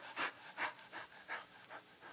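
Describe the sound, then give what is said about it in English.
A man's voice imitating a hound dog's panting: a steady run of quick, breathy huffs in an even rhythm, fairly soft, with no words. “I wish to God I could pant every day.”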